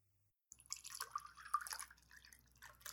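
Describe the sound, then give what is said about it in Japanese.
Milk poured little by little into crepe batter, a faint, uneven trickle and soft splashing that begins after a brief silence and keeps going in irregular spurts. “牛乳を入れるね。牛乳は、あった。じゃあ、少しずつ入れるね。”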